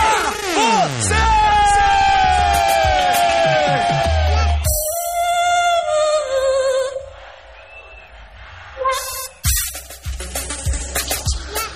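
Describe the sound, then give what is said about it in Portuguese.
A concert crowd at a live pop show in São Miguel shouts and cheers with hands up. The noise is loud and sustained, blended with loud, dense music. “Põe a mãozinha pra cima e grita.”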